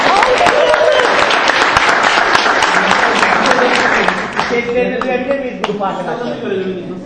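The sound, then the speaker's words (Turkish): Audience applause for the youngest group in a competition, dense clapping for about four seconds that thins out as people begin talking. “Ayrıca yarışmanın en genç grubu olduğunu belirtmek istiyorum. Alkışlayalım.”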